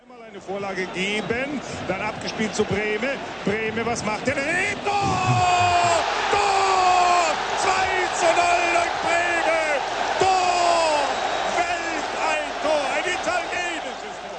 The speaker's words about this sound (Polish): To mecz piłkarski rozgrywany na stadionie, a okrzyki kibiców wyrażają radość z uzyskania bramki przez ich drużynę.